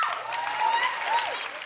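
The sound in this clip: Talk-show audience applause, with women in the crowd clapping in response to a question, heard as a steady, dense wash of claps lasting under two seconds and holding an even loudness throughout.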